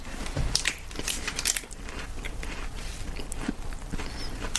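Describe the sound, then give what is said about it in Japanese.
Someone bites into a crispy chocolate and strawberry mille-feuille, and the flaky layered pastry gives a run of quiet, irregular crunches and crackles that continue throughout. “あ結構中はサクッとしてるんですねそしてこのミルフィーユの生地で中サクサクで”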